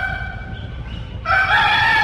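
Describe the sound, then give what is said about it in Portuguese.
A rooster crows with a strained, harmonic call that holds steady, then swells noticeably louder and brighter partway through. No voices accompany it. “tá na hora, então, ó, os galos estão cantando, bora!”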